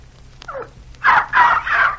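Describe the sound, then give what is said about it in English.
Yelping from a dog doing a trick where it runs around holding its paw as if hurt, with three loud, high yelps in quick succession after a few fainter sounds. “when I give the signal, he starts running around yelping and holding his paw”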